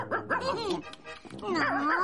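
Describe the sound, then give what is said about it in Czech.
A house dog makes faint, quick barks and yelps, a few short bursts with wavering pitch, while visiting a home. “Takový slušně vychovaný domácí pes by už měl vědět, jak se chovat na návštěvě.”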